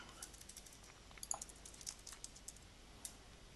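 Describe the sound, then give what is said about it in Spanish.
Faint typing on a computer keyboard as text is entered into a spreadsheet in Numbers, a run of quick, irregular key clicks with no talk. “Venga, ¿estás escribiendo?”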